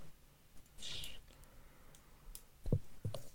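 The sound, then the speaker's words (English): A tape measure is pulled out with a faint rasp of the blade, then two firm clicks land close together near the end. The sounds are quiet and heard alone. “Man's getting a goddamn measuring tape.”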